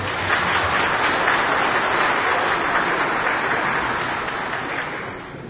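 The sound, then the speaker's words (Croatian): Audience applause greeting a law professor at a book presentation on legal customs: a dense, steady patter of many hands clapping, continuous and fairly loud, easing off slightly toward the end. “Da ga pozdravimo jednim aplauzom.”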